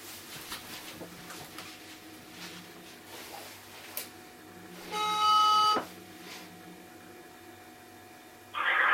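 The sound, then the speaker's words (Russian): Electronic ringing tone of a phone while a call is redialed: a steady buzzing tone lasting under a second, then another starting at the end, over a faint background hum. “Сейчас попробую еще раз набрать.”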